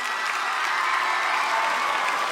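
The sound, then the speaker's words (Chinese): Cheering and applause from a crowded dining table in a great hall, a dense, loud and continuous wash of clapping and shouting that holds steady throughout. “如果有人此刻站在礼堂外面，可能会以为这里发生了爆炸。格兰芬多餐桌上的欢呼声一浪高过一浪，哈利、罗恩和赫敏站起来高声喝彩”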